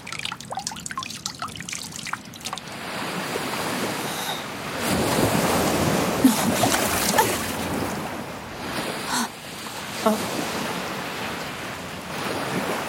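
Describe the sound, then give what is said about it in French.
Ocean waves wash over the sea in a scene from the anime Attack on Titan, with surging surf, gusty wind noise and a few trickling drips early on. “T'as vu ça? Je te l'avais dit, Irène. Une immense étendue d'eau, comme le décrivait mon livre. Une eau contenant plus de sel que ce qu'un marchand pourrait vendre durant toute sa vie.”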